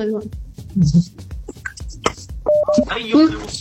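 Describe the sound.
Telephone dialing tones as a call connects, with a short steady beep standing out late amid mixed background sounds and voices.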